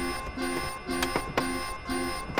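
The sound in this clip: An alarm rings out in a city street, an electronic tone pattern that repeats several times in a steady cycle. It is fairly loud and even, with no talk over it.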